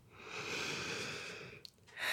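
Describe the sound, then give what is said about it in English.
A slow, deep breath during a guided relaxation exercise. The long, soft, airy breath lasts well over a second and is faint, followed by a short pause and another brief breathy sound. “Take another deep breath.”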